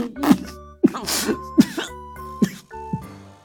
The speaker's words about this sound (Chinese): 谢承言猝不及防，一口酒瞬间喷了，他咳了几声